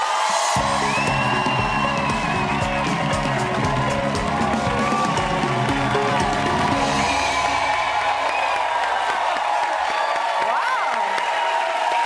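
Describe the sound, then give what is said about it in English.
A talk-show studio audience gives a standing ovation, loud sustained cheering, whooping and clapping with shouts rising above the roar and talking over it. “Standing ovation. You have an amazing audience.”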